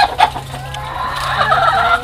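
Chickens cluck on an organic farm, a busy run of overlapping clucks and cackles that carries on steadily and fairly loud, with no talk.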